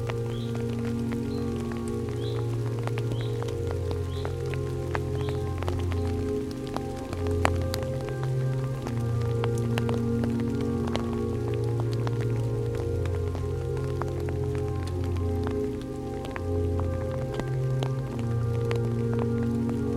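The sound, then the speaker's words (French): Rain gutters dripping during rainfall: a continuous patter of drops over a steady wash of rain, with a low, shifting drone underneath throughout. “Entendre les gouttières qui dégouttent.”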